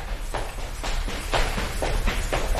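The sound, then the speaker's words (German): Footsteps of someone running slowly, a steady series of soft thudding footfalls about every half second over a constant low rumble. “Ich hoffe, man hört auf dem Podcast, wie langsam du gelaufen bist. Und wie schnell ich laufe.”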